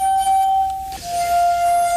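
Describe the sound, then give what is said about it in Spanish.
Sustained pure ringing of crystal glasses tuned with water and played as an instrument: one steady mid-pitched tone, loud and alone, dipping briefly near the middle and settling a touch lower afterward. “Luego hay instrumentos que realmente emiten sonidos extraños e inquietantes. Por ejemplo, las copas de cristal.”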